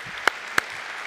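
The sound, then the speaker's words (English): Audience applause for the people who decorated the venue: a steady, faint bed of clapping with two sharp, louder claps standing out in quick succession. “Let's give them a hand.”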